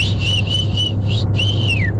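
Whistling carries a children's TV theme tune as a string of clear, high, sustained notes in a melodic phrase; the last note glides downward, and a steady low hum runs underneath.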